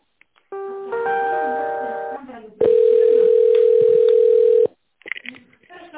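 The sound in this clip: Telephone ringing tone while a call is being connected: a short buzzy multi-tone signal, then one long steady mid-pitched tone lasting about two seconds, cut off abruptly, with brief speech-like sounds following.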